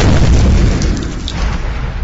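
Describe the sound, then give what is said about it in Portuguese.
Bomb explosion sound effect added in editing: a deep, loud boom with a broad rumbling body that fades slightly over two seconds. “Ô Ian, bota efeito na edição de bomba. Bomba!”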